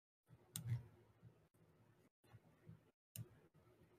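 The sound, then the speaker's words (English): Computer mouse clicks while someone uses Hero Forge: a few sharp, faint clicks stand out, spaced irregularly, against a very quiet background. “And yes, there is a lot of clicking because I am on Hero Forge right now,”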